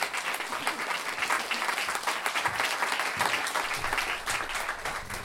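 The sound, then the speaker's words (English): Applause from a crowd, a dense, steady wash of many hands clapping that keeps an even loudness throughout without pause. “Hey, a round of applause for Mum.”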